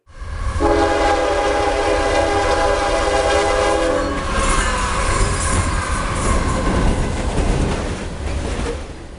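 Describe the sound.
A train sound effect for coming off the rails: a loud, sustained train horn blast with rich harmonic tones rides over heavy rail rumble, which continues as a dense roaring clatter after the horn stops.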